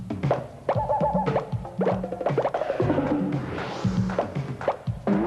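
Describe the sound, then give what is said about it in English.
Soft thumps, plops and boings of foam Nerf balls being thrown around indoors, many quick impacts in an irregular rhythm that keep on through the whole stretch. “I'm not sure exactly what's going on there, but apparently someone's throwing Nerf balls around.”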